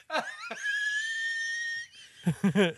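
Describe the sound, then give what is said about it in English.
High, whistling wheeze from a man laughing during boozy banter. One sustained squeaky tone hangs for over a second, then a few short, breathy voiced bursts of laughter follow. “Wheezing.”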